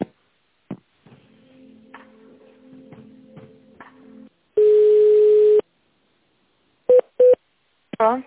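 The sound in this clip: Phone line tones as an office call is transferred to another department: faint crackly low tones, then one loud steady beep about a second long, two short beeps and a final brief burst.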